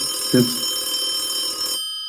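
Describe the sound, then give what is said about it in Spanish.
An electronic telephone ringing with a steady, high, tonal ring that holds for under two seconds and then cuts off abruptly, leaving silence. “Suena el teléfono, yo sé quién eres. Ah. Está sonando Prisionero. algo, está sonando ahí un teléfono. ¿Quién será?”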